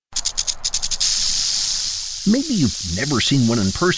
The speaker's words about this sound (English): but everyone knows this sound. It's the sound of a rattlesnake. In this case, it's the sound of a northern Pacific rattlesnake, which is found on the central coast.